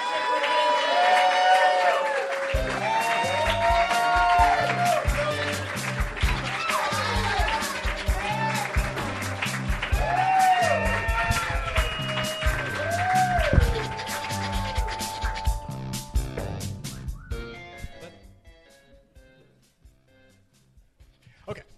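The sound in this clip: An audience cheers and applauds, with dense, sustained clapping and whoops over loud, upbeat music, and the noise fades out toward the end.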